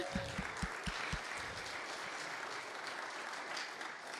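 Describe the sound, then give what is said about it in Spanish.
Church audience applauding during a bilingual Spanish-English service. A soft, steady wash of clapping runs throughout at a fairly low level. “Denle un fuerte aplauso al Señor. Let's give the Lord a hand this morning.”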